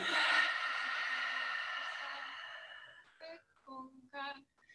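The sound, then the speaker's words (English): A big breath during a guided breathing exercise: a long, airy rush that slowly fades over about three seconds, followed by a few short voiced sounds. “Big inhale. And a big exhale.”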